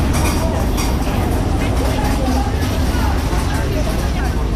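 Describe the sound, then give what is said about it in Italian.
Busy ambience at the train station in Bulle, Gruyère, where crowds of young people pass through: continuous crowd chatter over a low, steady vehicle and engine rumble, fairly loud throughout. “Alla stazione di Bulle, al mattino e alla sera, ci sono ondate di ragazzi in transito.”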